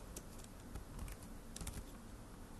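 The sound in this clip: Someone types on a computer keyboard. The quiet, irregular keystroke clicks come in small bursts over a steady background hiss, with no talk.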